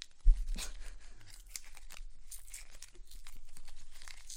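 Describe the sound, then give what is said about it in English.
Plastic or paper wrapping being torn open inside a moving car: a sharp rip at the start, then many small irregular crinkles and crackles over a low, steady rumble. “I hear some unwrapping noise.”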